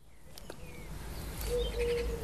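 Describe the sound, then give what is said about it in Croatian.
Small birds singing in the pine trees in front of a family home's terrace: faint, scattered chirps and short whistled notes over a low, rumbling background, with no voices. “Volim kad čujem ove male ptičice kak pjevaju tu na našim borovima ispred naše terase u moje rodnoj kući.”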